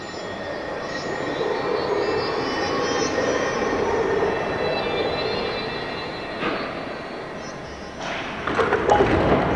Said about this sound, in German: Aber der Zug hält nicht.